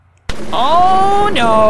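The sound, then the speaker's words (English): A voice imitates an explosion during a tabletop role-playing game narration: a sudden sharp burst followed by a sustained, loud voiced rumble whose pitch sags downward before it breaks off. “And then all of you hear a large nearby explosion. Not from this building, just a, the sound of like falling masonry.”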